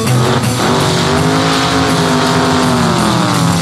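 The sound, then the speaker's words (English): A Mustang accelerates with the gas pedal floored: a loud, sustained engine roar with a squealing edge that runs without a break for the whole clip. “so I started to make that Mustang unwind. Pushed the foot feed clear to the floor.”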